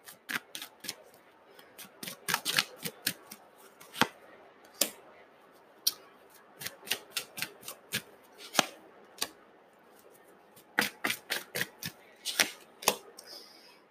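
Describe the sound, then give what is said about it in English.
Tarot cards being shuffled and pulled, with many sharp, crisp card snaps and flicks arriving in irregular clusters and pauses, fairly quiet and alone. “All right, I'm going to pull a couple more cards here.”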